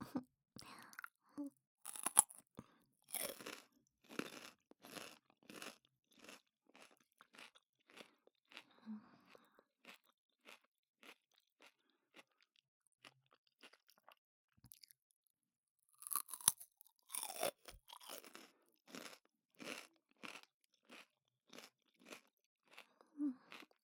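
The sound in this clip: Crunching and chewing of food while eating: many quiet, close crisp crunches and moist chewing sounds, with louder, denser bursts near the start and toward the end.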